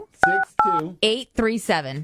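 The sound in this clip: Telephone keypad dialing tones: two short, steady beeps near the start, mixed in among a voice that speaks between and after them.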